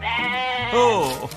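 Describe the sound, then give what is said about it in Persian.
A young goat bleats in one long, wavering cry that shifts in pitch partway through, heard clearly on its own. “بزغاله بزغاله، هی بزغاله، بیا بیا بیا برگرد، بیا اینجا برگرد ببینم.”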